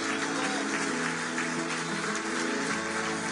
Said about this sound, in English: Come on, give God a big shout of praise in this house.